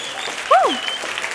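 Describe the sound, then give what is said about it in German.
Steady applause holds at an even level throughout, with a brief tonal cry rising and falling midway. “Großer Applaus für Joscha.”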